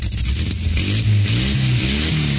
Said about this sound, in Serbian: Kad motori zabruje. Pazi ti to, čoveče. Za sve koji vole točkove.